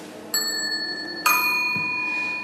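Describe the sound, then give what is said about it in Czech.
A ding-dong doorbell chime rings out as two clear bell tones about a second apart. The second tone rings on and slowly fades away. “pak podle zvuku také zvonek, který se nazval ding-dong. Můžeme jednou, ding-dong.”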